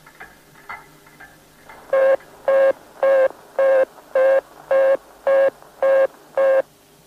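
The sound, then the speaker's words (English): An American telephone busy tone signals engaged local lines or equipment. After a faint, quiet lead-in, eight steady, evenly spaced beeps of one pitch sound alone, each about half a second long with equal silent gaps between them. “The tone indicating that the local lines or equipment in America are engaged will sound like this.”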